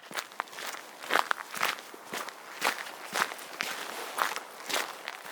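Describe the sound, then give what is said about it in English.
Footsteps of someone out for a walk: many crisp, evenly paced steps fall at a steady walking rhythm, each a short scuffing tap at moderate loudness, with no talking. “if you guessed that this week's topic is going for a walk”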